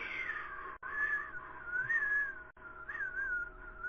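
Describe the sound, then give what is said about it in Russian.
Whistled tune in telephone hold music: a bright, continuous melody that glides and wavers between notes, steady in loudness, broken by two brief silent gaps. “у вас музыка прикольная, просто я не могу, конечно, так свистеть.”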